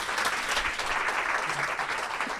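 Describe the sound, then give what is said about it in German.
Strong applause from the audience at a mayoral candidates' forum, honoring the two candidates: a dense, continuous roar of clapping that stays loud and even throughout. “Und ich bitte jetzt einmal um einen kräftigen Applaus für die beiden Kandidaten.”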